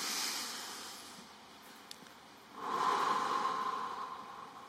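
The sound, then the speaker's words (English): A deep breath drawn in through the nose, then exhaled through the mouth, two soft airy rushes with a pause between, the second longer and slightly louder, heard alone without talk. “Now you have to breathe in through your nose. So breathe in deeply through your nose and then exhale out with your mouth. Okay, breathe in.”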